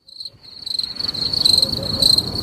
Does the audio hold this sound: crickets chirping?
yes